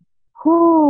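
A deep exhale through the mouth, voiced as a low, steady 'ooh' in a relaxation breathing exercise. It begins after a brief silence and holds one sustained, fairly loud tone to the end.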